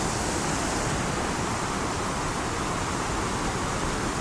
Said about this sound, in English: You can hear the hiss and the roar of the water crashing into the well-washed rocks below.